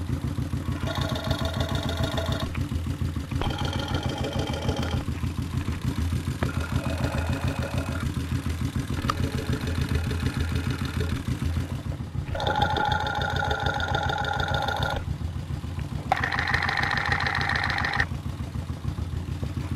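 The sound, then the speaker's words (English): A motorcycle engine idling, heard with the microphone moved along the exhaust from back to front. The steady low, throbbing rumble is broken by several bursts of a brighter, ringing tone that comes and goes and changes character as the microphone moves. “It's almost like using a stethoscope. I'm moving it up the length of the exhaust from the back of the motorcycle up to the front.”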